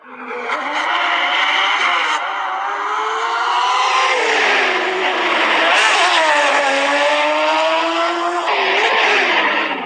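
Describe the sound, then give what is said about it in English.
Porsche 911 GTE race car engine roaring in a racing video game: a loud, continuous, high-revving howl that climbs in pitch, drops sharply at gear shifts, then climbs again, alone without voices. “This is from Automobilista 2, the new release of the Racing USA pack. This is the Porsche 911 GTE.”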